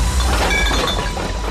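Coins clink together in a brief jangle of a few bright metallic rings over a dense rattle, lasting just over a second.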